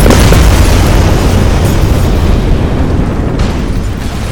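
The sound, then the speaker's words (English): An explosion effect of volatile barrels blowing up: a loud, dense booming roar that fills the whole stretch and tapers off only slightly toward the end. “there is a flash of light and a boom as you realize that whatever the fuck was put in this stuff, when they said it was volatile, they weren't kidding.”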